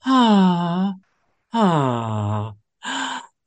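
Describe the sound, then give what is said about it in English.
A voice imitates the sighing automatic doors from Star Trek with three breathy, drawn-out sighing sounds. The first two are long and steady, and the third is shorter. “you know, to me, these are magical. The doors in Star Trek almost sigh, don't they?”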